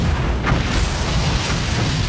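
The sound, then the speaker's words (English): Explosion closing a film trailer, heard as a loud, dense booming roar that holds steady and continuous for about two seconds without a clear break or decay. “So the trailer starts with a rocket taking off into space, and that audio is from various news media outlets, all choosing some colorful words to describe Musk, and it ends with an explosion.”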